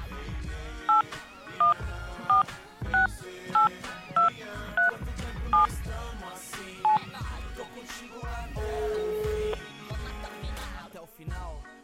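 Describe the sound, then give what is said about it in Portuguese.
A telephone being dialed to call someone: nine crisp touch-tone beeps at a fairly even pace, then a brief steady tone, with other faint sound in the background throughout. “Ligo ou não ligo? Será que ela tá acordada ainda? Será que ela vai atender? Vou arriscar.”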